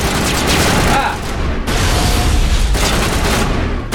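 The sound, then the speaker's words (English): Gunfire in a video game: dense, loud, rapid shots run almost continuously, with a short break partway through before the shooting resumes. “Come on, guys, you can't shoot through the floor.”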